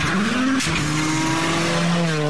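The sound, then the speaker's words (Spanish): Race car engines revving hard: a loud, continuous engine whine climbs in pitch, breaks off, then drops to a lower, steady drone. A faint tire squeal sits under the engine noise. “Se encienden los motores. Se prende la pasión y pisamos el acelerador a fondo.”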